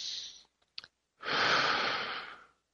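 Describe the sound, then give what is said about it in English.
A deep breath taken slowly during a guided relaxation exercise: a long, airy breath sound of about a second and a half follows a shorter breath and a few faint mouth clicks. It is soft and steady, with no talking. “Take a moment. Take a deep breath.”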